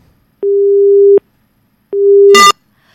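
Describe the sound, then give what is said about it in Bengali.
Telephone busy tone after a call is cut off: two steady, low-pitched beeps of about three-quarters of a second each, separated by silence, with a short crackling click at the end of the second beep. “ফোনটা কেটে গেছে, কথা বলা হলো না।”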